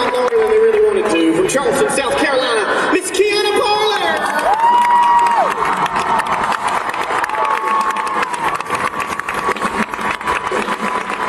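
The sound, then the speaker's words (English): Cheering and applause from a live show audience, loud and sustained, with crowd shouts, voices and tonal whoops running through the noise. “Make sure you support them, please. They gave me my start, so hey, give them a round of applause again tonight for us.”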